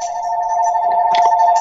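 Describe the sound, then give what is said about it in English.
An incoming phone call rings as one continuous, steady, high electronic tone, loud and alone, with faint rustling beneath it. “Oh, it's a phone call.”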